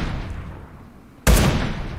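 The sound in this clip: Video-game gunshot fired at a gas canister: one sudden, loud, sharp blast with a short rumbling tail that breaks a low, quiet background.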